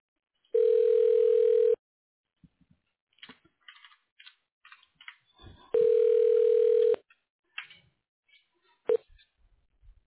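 Telephone line tone heard while a call is transferred to voicemail: two steady mid-pitched tones of about a second each, separated by a stretch of faint clicks and small line noises, with more faint clicks after.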